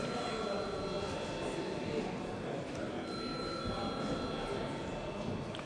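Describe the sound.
A parliament's registration bell rings as a steady, unbroken electric clamour, a harsh metallic ringing with a rattling edge that holds at an even level from start to finish.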